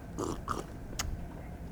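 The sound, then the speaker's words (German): Faint drinking from glasses of apple-flavored juice to tune them as a glass organ, a few short slurps and gulps separated by quiet pauses. “Oh, jetzt muss ich auch aus den anderen Gläsern trinken, damit es wieder stimmt.”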